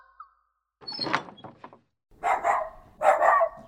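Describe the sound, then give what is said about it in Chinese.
Dog barking in a few sharp, loud bursts separated by brief pauses, with no voices alongside. “你要干什么？为什么突然牵条狗进来？”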